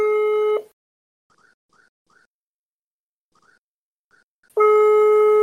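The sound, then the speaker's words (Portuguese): Ringing tone of a mobile phone call that goes unanswered: a steady electronic tone at the start, then near silence with a few faint blips, and a second loud, steady ring near the end. “Não adianta ligar pro número dele, porque vai tocar do mesmo jeito e ele não vai atender.”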